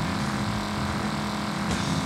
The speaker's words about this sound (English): Was it because I was driving on the opposite end of the street?